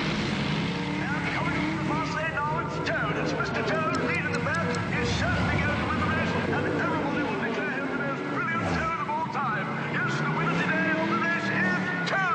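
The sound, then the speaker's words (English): A motor car speeds and races along a country lane, in the style of an old black-and-white car racing film. Its engine roars loudly and without a break, and the pitch shifts throughout, with a downward sweep near the end. “Toad speeds down a country lane. Now Toad appears in a black and white car racing film. He pretends to compete.”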